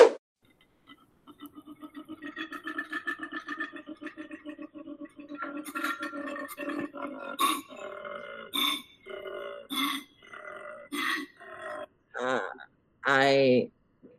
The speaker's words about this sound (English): That, my friends, was a koala bear.